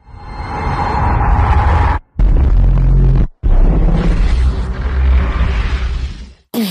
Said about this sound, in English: when Palps is obliterating the fleet, and he puts his hands up, and the sound—it's almost like the seismic charge on Attack of the Clones. The way that the sound gets sucked out again